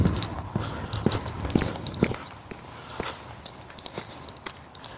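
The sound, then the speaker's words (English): Footsteps of someone walking in boots with one boot untied: a steady series of crisp, scuffing steps at a walking pace, louder at first and a little fainter toward the end. “The other boot is untied now. Tough, we're going to walk with it that way.”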